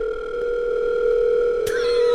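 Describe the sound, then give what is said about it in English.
An electronic telephone tone from a phone calling another line: a steady, loud, pure tone that holds without a break, then a sharp click near the end as the tone shifts. “There's a phone calling my other phone.”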